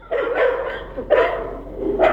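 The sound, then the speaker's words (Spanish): Dogs barking on a street, a few loud, mid-pitched barks in quick succession with short pauses between them. “Sí, este es el de los perritos. Sí, aquí podemos ver la gran cantidad de canes”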